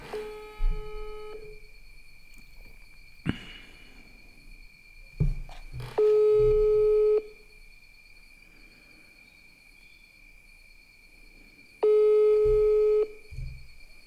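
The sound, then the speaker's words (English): A WhatsApp voice call rings out with three steady electronic tones about a second long, spaced several seconds apart, over a faint constant high whine and low background noise. “Now this is a WhatsApp call, so we are in the metaverse.”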